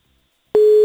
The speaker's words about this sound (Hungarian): Ibike, vedd föl, keresünk.